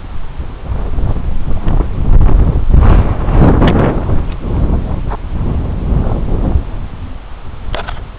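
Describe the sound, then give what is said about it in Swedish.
Strong wind buffets the microphone high up in a very exposed, windy spot, a continuous loud low rumble with gusty swells and no break throughout. “Ja, nu är jag ganska högt upp så det är otroligt blåsigt. Otroligt blåsigt här då.”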